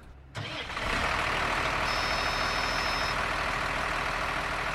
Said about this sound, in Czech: Teď jedeme vysypat vlečku obilí do haly na uskladnění pro naše kravičky